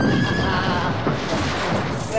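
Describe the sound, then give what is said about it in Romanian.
A general's horse neighing: a loud, drawn-out whinny over a dense, noisy background. “Ăsta-i cal de general. Un cal care face 10 galbeni ca nimica.”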